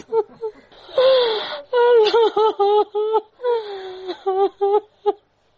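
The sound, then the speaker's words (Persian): A mother crying in grief after her two daughters were killed in a car bombing in Kabul: loud, high wailing sobs in many short bursts, broken by gasping breaths and whimpers. “این صدای گریه مادر نگینه و زحل”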